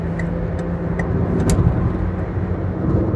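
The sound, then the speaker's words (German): A Citroën Berlingo overtakes an older car ahead of it. A steady, fairly loud engine and road roar fills the stretch, with a few faint, brief high clicks above it. “Oh, ich fahre ja auch in einem Berlingo. So, den überhole ich jetzt mal.”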